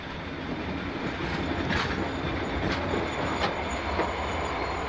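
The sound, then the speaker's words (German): A train pulls into Carlisle station with a steady, loud rolling rumble of wheels and carriages. Faint high squeals and light clacks rise briefly above it a few times, and there are no voices. “Planmäßig muss der Zug jetzt auf den Bahnhof von Carlisle einfahren.”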